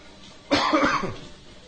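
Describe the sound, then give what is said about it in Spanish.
Coughing from someone with a terrible cold: one short, harsh burst of coughs with a throat-clearing quality, rising abruptly out of quiet and fading after about half a second. “Si me oyen tosiendo es que estamos pasando un catarro terrible”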